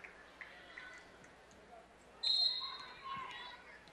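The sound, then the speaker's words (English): A volleyball is bounced on the court a few times before a serve in a district final match, giving faint, soft thuds that are then covered by louder, steady gym noise. “She'll bounce it a couple times.”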